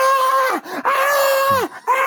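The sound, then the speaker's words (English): A man's voice imitates the scream of a man who hit his head on a crowded subway train: a few loud, drawn-out cries that drop in pitch at their ends, with short breaks between them. “And then he just screamed,”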